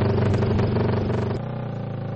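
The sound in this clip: Motorcycle engines roar as riders race across a frozen lake on ice half a metre thick, on special tyres studded with screw heads, at speeds near 112 km/h; a loud continuous drone drops lower and quieter partway through.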